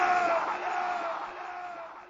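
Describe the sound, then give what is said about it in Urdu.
A large crowd roaring in unison in answer to the Nara-e-Risalat religious slogan, a loud, sustained collective shout of many voices that holds for about two seconds and slowly tapers off. “نعرہ رسالت. اور زور سے نعرہ رسالت.”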